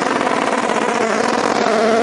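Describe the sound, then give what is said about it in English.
A Gibson racing car engine hammers off its rev limiter in a loud, harsh, buzzing drone with a rapid stuttering pulse that holds steady throughout. “that sounded fantastic, that Gibson engine, right, hammering off the rev limiter.”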